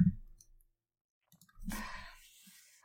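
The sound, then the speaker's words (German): Typing on a keyboard close to the microphone: a few soft, separate clicks and taps between stretches of silence, ending in a slightly denser burst of keystrokes. “Ich tippe hier so schön ins Mikro.”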